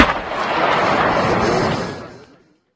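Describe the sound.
Gunfire from a long-barreled weapon during a standoff with an armed suspect, heard as a loud, broad, booming blast that rumbles for about two seconds before cutting off.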